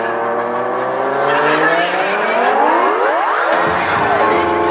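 Race car engine as a sound effect, a loud sustained whine with stacked harmonic tones that sweep down in pitch as it roars past midway, then carries on at full volume.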